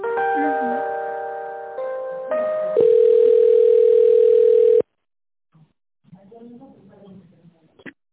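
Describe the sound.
Telephone tones while an office call is transferred: a chord of steady electronic tones shifting in steps, then one loud continuous tone that cuts off abruptly, followed by a short silence and a voice talking briefly.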